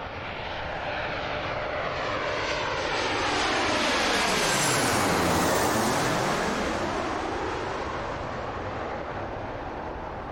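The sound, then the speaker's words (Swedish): An airplane on a flight to Brazil sends out a broad engine roar that swells to a peak midway and then slowly eases off, loud and continuous throughout. “Vi checkar in bagaget och hoppar på flyget till Brasilien helt enkelt.”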